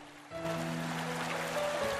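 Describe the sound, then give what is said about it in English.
Water sloshes and flows across a sandy riverbed with white foam floating on its surface. A steady, broad rushing wash rises in quickly and holds, over a low sustained tone. “Water sloshes across a sandy riverbed and oozes along with a white foam floating on its surface.”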